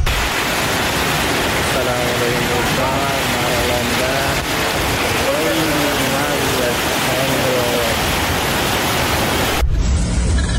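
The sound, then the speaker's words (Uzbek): Floodwater covers the roads in Namangan after heavy rain, a loud, steady rushing wash. Faint voices sound beneath it, and the noise cuts off abruptly near the end. “Mana Namanganda suv bosdi. Yo'llarda suv bosib ketdi mana. 14 oktyabr kuni mamlakat bo'ylab kuchli yomg'ir yog'ishni boshladi.”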